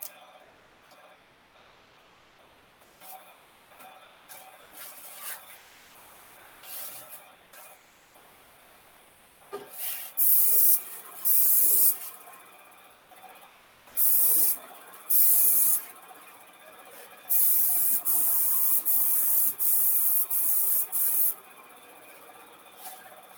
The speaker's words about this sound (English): General theory about spraying in my company is edges first, start away from you, work towards you, 30 to 50% overlap, and you really want to fill the pores.